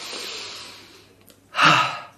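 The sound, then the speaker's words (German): A deep breath: a long, soft, airy rush of air fades out, then after a brief pause a louder, fuller intake of breath swells and trails off, with no talking. “Ich darf mal wieder auch hier eine Runde durchatmen.”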